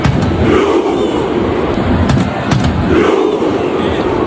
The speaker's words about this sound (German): Das, was ihr gehört habt, sind die norwegischen Fans und ihre Fußballnationalmannschaft an der WM.